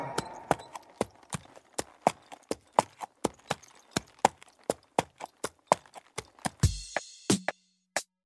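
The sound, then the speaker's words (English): Horse walking, its hooves clip-clopping in a steady, even rhythm of many sharp knocks that carry on alone, with no talk, until a brief harsher burst near the end. “That was the sound of a horse walking.”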